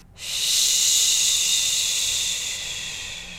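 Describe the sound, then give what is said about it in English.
Shushing on an extended exhale, one long, bright, breathy hiss that swells quickly, holds steady, then eases slightly toward the end. “I will take a breath and I will do an extended exhale. And I do a little shushing on the exhale”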